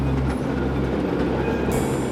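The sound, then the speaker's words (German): A lone tram runs along a city street at night, giving a steady, loud low rumble with grinding mechanical texture throughout, and a thin high tone joins near the end. “Eine einsame Straßenbahn kam die Straße entlang auf dem Weg hinaus in die Außenbezirke der Stadt.”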